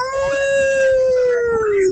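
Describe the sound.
A wolf lets out one long, sustained howl, loud and clearly tonal, holding a steady pitch before sliding slightly lower near the end.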